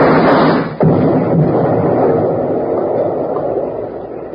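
A lit fuse charge explodes among rocks: a dense, noisy roar drops briefly, then a sharp, loud burst hits and settles into a long rumbling roar that slowly thins out.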